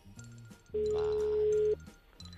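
A telephone call tone heard while a call is being placed again: a single steady mid-pitched beep lasting about a second, with fainter low sounds before and after it.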